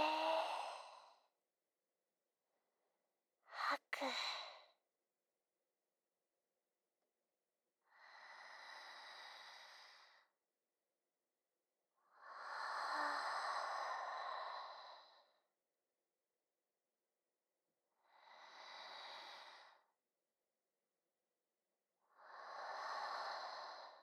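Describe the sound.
Deep breaths in and out during a guided calming exercise. Six slow, airy breaths are separated by silences. One is short and sharp, and the others are longer, soft sighing exhales.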